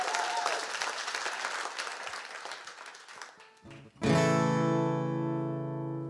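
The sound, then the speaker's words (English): Audience applause welcoming a performer, a dense, steady clatter of clapping for about four seconds that is cut off by a loud, sustained ringing chord, which slowly fades. “So please, put your hands together.”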